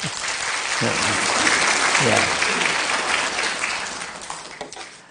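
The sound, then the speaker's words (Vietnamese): Audience applause welcoming a pastor at an evening gathering: a steady, full wash of many hands clapping that swells slightly and then eases off, with a couple of brief voices heard through it. “Xin kính mời Mục sư. Chúng ta hoan nghênh.”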